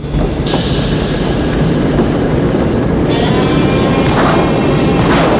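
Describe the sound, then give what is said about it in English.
A train starts to move on an elevated section of track beside a roof: loud steady rumble and rattling wheels, with a high squeal rising near the end. “A train starts to move on the elevated section of track parallel to the roof.”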